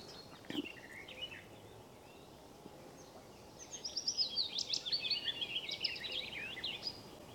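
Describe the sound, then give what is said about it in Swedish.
A willow warbler and a garden warbler sing on a summer morning. A short, high phrase comes first, then a long, rapid run of high warbling notes, faint over a low, steady background hush. “Vad är det för något som håller låda? Just nu är det lövsångare och trädgårdssångare som sjunger.”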